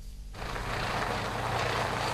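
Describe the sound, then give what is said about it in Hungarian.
The Szany village bus runs with a broad, steady engine rumble and road noise that starts sharply at about a third of a second and holds loud and even to the end. “Munkában a Szanyi falubusz. Hétfő óta a vasútállomásra is jár.”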